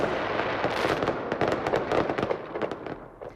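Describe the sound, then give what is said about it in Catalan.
Fireworks crackle and pop in a festival display by the winning pyrotechnics company of an international fireworks competition: many dense, rapid bursts and sharp cracks in a loud continuous barrage that thins out and fades toward the end. “La pirotècnia guanyadora del concurs internacional de focs ha estat l'encarregada de fer el castell de focs de la Punta del Miracle”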